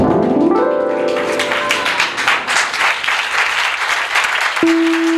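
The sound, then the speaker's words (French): An audience at a church service applauds at length, a dense wash of clapping that begins as a sustained musical tone fades, and a held keyboard-like note enters near the end beneath the clapping. “Est-ce que tu peux te lever et acclamer ce nom qui est Jésus-Christ?”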